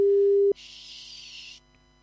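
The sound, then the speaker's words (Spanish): A telephone call tone: a single low, steady beep lasting about half a second, then a short stretch of soft hiss that fades to near silence. “¿Y si lo llamo por aquí? Aquí lo podemos llamar. Aquí lo vamos a llamar.”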